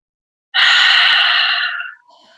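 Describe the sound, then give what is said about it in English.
A long, deep breath rushes out in one loud, sustained airy sigh of about a second and a half, cutting off fairly sharply and leaving a faint breathy trace. “One more beautiful long inhale.”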